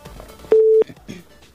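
A single short, steady telephone line tone sounds as a caller is connected on a radio call-in show. The beep is clear and level, set between faint background sounds.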